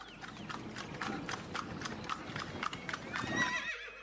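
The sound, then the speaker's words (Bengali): A horse pulling a tonga carriage arrives, its hooves clip-clopping in a steady run of many even beats. A whinny rises near the end. “এই যে, এই যে টাঙ্গা এসে গেছে, ওঠো ওঠো ওঠো।”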